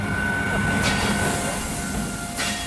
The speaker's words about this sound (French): Il est 2h45 ce matin et pile à l'heure, le train des primeurs atteint le quai tout éclairé du célèbre marché de Gros Parisien. 12 wagons réfrigérés charrient des fruits et légumes depuis Perpignan.